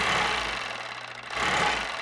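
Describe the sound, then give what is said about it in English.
An old sewing machine stitches a scarf made from red coyote skin with a continuous, even motor whir and low hum. The sound dips briefly near the middle and then resumes at full strength, with no voices. “sits at an old sewing machine. He's making a scarf.”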